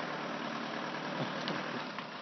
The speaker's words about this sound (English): this is the sound of the two vehicles, the Musafari people.